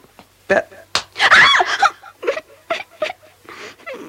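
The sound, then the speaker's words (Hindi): Someone slaps another person at home during storytelling, a few sharp, loud smacks cutting through lively talk between people. “मारते क्यों रहते हो हर वक्त?”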